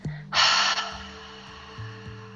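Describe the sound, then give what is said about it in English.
A forceful exhale through the mouth in a paced breathing exercise: a sudden, loud, airy burst that eases off over a fraction of a second, above soft, low, steady tones that shift pitch underneath. “In, two, three, four, holding your breath. Two, three, four, exhale through the mouth.”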